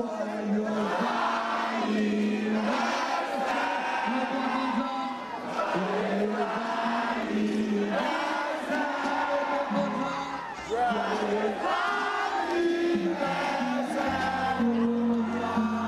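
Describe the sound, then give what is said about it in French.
At the FEMUA festival, a large audience sings a birthday song in chorus for an artist on stage. The massed voices are loud and sustained, with whoops and cheers mixed in throughout. “il y a un des animateurs du FEMUA qui est monté sur scène pour lui faire une petite surprise et le public a chanté en chœur « Joyeux anniversaire à Lokwa ».”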